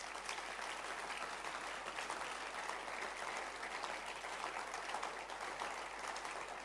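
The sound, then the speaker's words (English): Hands clapping in an audience during a church service: dense, even applause that holds at a steady level for several seconds without a break. “In Jesus' name, clap your hands for Jesus.”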